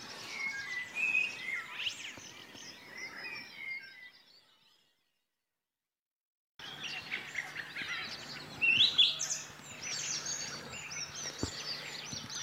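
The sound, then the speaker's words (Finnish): Faint high calls of a common sandpiper circling over a lake before sunrise mix with other soft birdsong, broken by a stretch of near silence in the middle. “Siinä menee rantasepi kiertelee.”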